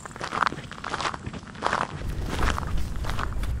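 Footsteps of walkers setting off on a forest walk in the Peersbos crunch on the path. A few irregular, soft steps sound faintly, with slight rustling between them.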